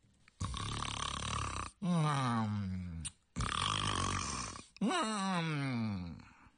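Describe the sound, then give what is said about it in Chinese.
A storyteller vocally imitates Qin Qiong's thunderous snoring, four long, loud, rasping snores, some noisy and breathy, others lower and groaning, each separated by a brief pause. “就听秦琼在里头是鼾声如雷”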